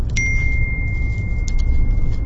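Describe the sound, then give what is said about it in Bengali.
A phone's incoming-message notification tone: one bright ding that holds as a steady high ring for about two seconds over a low background rumble. “এবার message এসেছে।”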